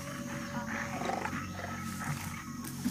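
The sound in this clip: A jaguar roars in the jungle: a rough, steady growling roar that stays loud and continuous for the whole stretch, with no voices over it.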